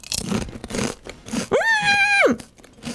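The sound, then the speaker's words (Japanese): Crunching of lemon-flavoured kettle-style potato chips: a few crisp, brittle bites, followed by a sustained voiced tone. “ちょっとぜひぜひ、 いただきます、うん、このね、折れ曲がってる感じもいいんですよね、 片揚げ ポテトね。”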